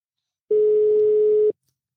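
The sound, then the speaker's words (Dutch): A telephone tone sounds while a call is placed: one steady, mid-pitched beep holds for about one second, with silence before and after. “we gaan hem bellen.”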